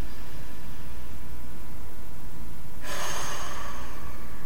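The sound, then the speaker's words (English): Slow breathing exercise, with air drawn in through the nose and let out through the mouth: a steady, soft airy hiss that swells abruptly into a louder, brighter rush of breath near the end. “Again, inhale through the nose, exhale through the mouth.”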